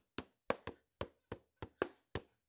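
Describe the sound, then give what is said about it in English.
Hands tapping a beat on a table, ten sharp, percussive knocks in a loose rhythm, some falling in quick pairs, heard alone without any talk. “Okay, I was never good at making beats on the table.”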